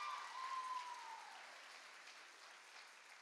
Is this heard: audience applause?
yes